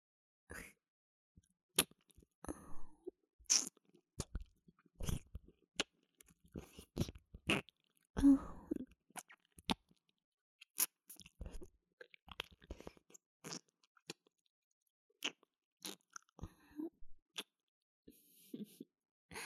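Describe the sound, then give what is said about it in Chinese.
Close mouth sounds of nibbling and chewing on an ear: many faint wet clicks, smacks and crunchy bites in irregular bursts separated by short silences. “你的耳朵还真是好吃呢，姐姐都忍不住多尝几口了。”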